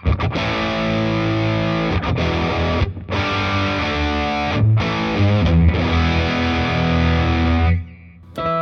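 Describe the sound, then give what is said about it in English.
Distorted electric guitar runs through a discontinued Nirvana Chorus pedal and a Boss Digital Delay into an amp's gain channel. Loud, thick chords ring out continuously with shimmering sustain and a few brief gaps, then fade at the end. “so we're going from that into the Nirvana Chorus, which is discontinued, into the Boss Digital Delay. And right now, I'm on the gain channel of the amp. So the tone sounds like this.”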